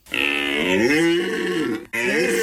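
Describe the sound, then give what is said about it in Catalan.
Red deer stag bellowing during the rut in the Pyrenees: a long, loud, moaning harmonic call that holds for nearly two seconds, followed by a second bellow that is cut off at the end. “La brama del cèrvol.”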